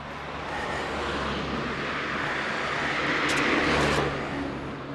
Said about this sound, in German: so kann ich wenigstens hören, wie das Mikrofon das geregelt kriegt mit den Autos.